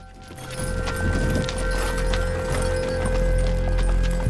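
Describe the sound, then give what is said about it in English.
Horses' hooves clop steadily as two riders follow behind a departing horse-drawn cart, the rhythm even and fairly loud over a low rolling rumble. “His cart moves off, driven by Abel, and his two mean henchmen follow behind on horseback.”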